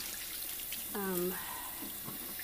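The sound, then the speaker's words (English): Cola is poured out down a sink, giving a faint, steady watery rush and splatter, with a brief voice sound partway through. “So, lots of Cokes to pour out.”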